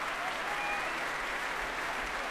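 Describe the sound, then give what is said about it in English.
Dense, steady applause with cheering from the audience and orchestra as the conductor returns to the stage after an orchestral concert. It is sustained and even, with no individual claps standing out. “Semyon Bychkov making his way back on stage now. Great cheers from audience and orchestra.”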